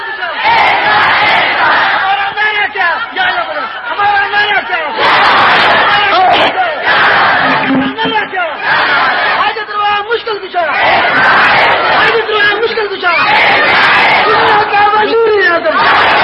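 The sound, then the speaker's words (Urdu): A large crowd shouts a religious slogan in loud unison. The chanted phrases come in several surging bursts, with short dips between them. “ہاں ہاں پھر نعرہ لگاؤ”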